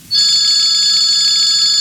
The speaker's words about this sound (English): Oh, boy, the phone.